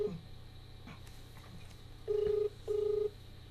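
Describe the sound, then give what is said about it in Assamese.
Ringback tones of a mobile phone call being connected: two steady, even beeps of equal length with a short gap between them, over a constant low hum. “মই মোবাইলৰ পৰা তেখেতক সংযুক্ত হ'বলৈ তেখেতৰ সৈতে চেষ্টা কৰিছোঁ”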